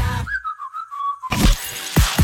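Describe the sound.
A single sustained whistle blast lasting about a second, marking play in a soccer match, steady and fairly high-pitched with a slight waver. A few short noisy bursts follow it.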